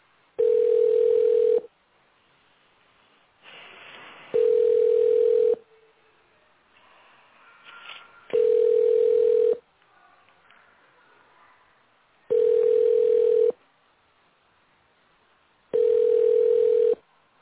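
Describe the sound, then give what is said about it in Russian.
Telephone ringback tone on a call that the other party never answers: five steady mid-pitched beeps, each a little over a second long, separated by gaps of about three seconds with faint background noise between them. “Продолжаем дозваниваться. Оставайтесь на линии. Абонент не берет трубку.”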